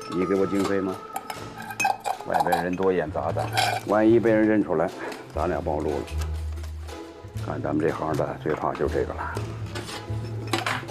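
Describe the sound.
Cooking pots, pans and utensils are pulled out of a heavy bag and clank and clink against each other. The clatter sits under a steady conversation between people.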